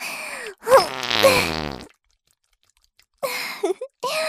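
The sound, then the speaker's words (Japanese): A single drawn-out fart, loud and buzzy with a flapping low tone lasting about a second, followed by silence and then a few short breathy noises. “ああ、来た来た。おなら来たよ。”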